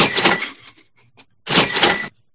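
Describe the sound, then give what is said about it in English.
A cash register rung twice, giving two bright, loud bursts of clattering, ringing sound separated by a short quiet gap with a few faint clicks. “I'm going to ring the cash register”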